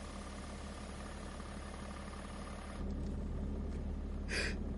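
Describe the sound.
Car engine rumbling after hard braking just short of an earth embankment: a steady low drone that steps up in loudness midway, with a brief higher hissing burst near the end.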